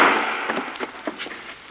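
A single gunshot sound effect in a radio detective drama, a sharp loud bang at the very start that decays, followed by faint minor knocks.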